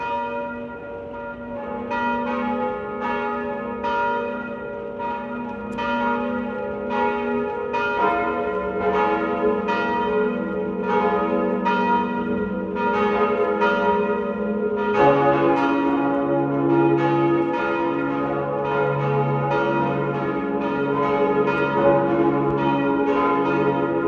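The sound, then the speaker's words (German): Parish and pilgrimage church bells ring out at noon from a baroque hilltop church in Lower Austria: loud, many rhythmic strokes, with a further bell joining about halfway through and the peal continuing alone. “Sie hören die Glocken der Pfarr- und Wallfahrtskirche Sonntagberg in Niederösterreich.”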